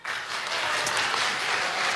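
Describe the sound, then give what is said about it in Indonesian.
Audience applause at a live event with a young crowd starts abruptly and settles into a steady, even rush of clapping that stays moderately loud with no voices on top. “Iya, give applause dulu dong.”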